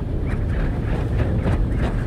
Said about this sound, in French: Nous sommes arrêtés avec moteur coupé, ce qui fait que on ressent toutes les sensations du vent.